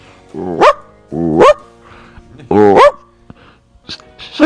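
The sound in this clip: A family dog barking: three loud, sharp barks with rising pitch, spaced about a second apart, followed by a few fainter yips and short noises.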